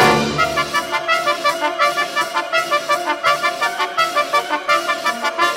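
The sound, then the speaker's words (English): A symphony orchestra plays loudly, heard from on stage right beside the brass section of trumpets and trombones, with full sustained chords driven by a steady, rapid pulsing rhythm throughout. “For the second piece, Scythian Suite by Sergei Prokofiev, I moved to the other side of the stage, close to the brass.”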